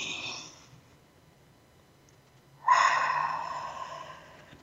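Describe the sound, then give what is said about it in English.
Deep breath taken during a guided relaxation exercise: the airy tail of one breath fades out at the start, then after a quiet pause a strong, rushing breath swells suddenly and slowly tapers off. “Tips of your toes, another breath.”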